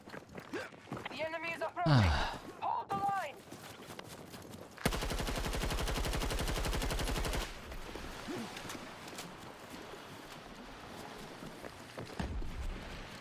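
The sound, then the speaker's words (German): Video game explosion effects: a loud, dense crackling burst of rapid pulses lasting about two and a half seconds, with voices before it and quieter game noise after. “Schön, das war ein schöner Effekt, wie die Dinger explodieren.”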